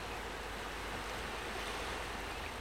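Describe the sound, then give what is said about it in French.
Calm Mediterranean sea off Crete, a soft continuous wash of small waves with a faint breathy hiss, quiet and steady throughout with no distinct breaking swells. “Vous êtes face à un paysage sec et escarpé. Derrière vous, la mer est calme.”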